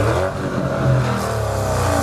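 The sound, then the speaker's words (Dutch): A Porsche Cayenne Coupé GTS V8 with sport exhaust revs, a loud, deep, continuous engine drone with a rich, steady harmonic tone sustained for the whole moment. “Ja, dat geluid kan ook uit de gewone komen natuurlijk, maar. Ja, nee, V8 en met sportuitlaat. Nee, en het is weer de V8, hè?”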